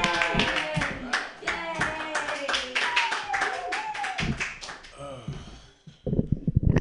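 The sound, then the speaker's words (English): Audience clapping and cheering welcoming a comedian to the stage at a comedy show, with irregular hand claps mixed with loud excited voices throughout, the clapping thinning briefly before a final flurry. “Put your hands together, everyone, for Rob Edwards.”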